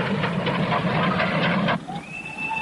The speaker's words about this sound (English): Hey, there's a train coming. Let's play chicken on the rail.